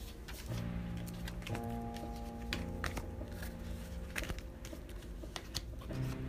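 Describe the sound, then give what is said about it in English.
Soft shuffling and light clicking of an oracle card deck, the Songs of Osirin cards, as it is picked up and handled, with scattered taps over a steady tonal background. “So let's see. I'm gonna take these cards up.”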